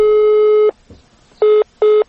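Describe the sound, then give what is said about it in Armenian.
Telephone call going unanswered: a long, loud ring tone lasts under a second, then after a pause come two short busy-signal beeps at the same steady pitch, with no talk. “նա չպատասխանեց մեր զանգերին։”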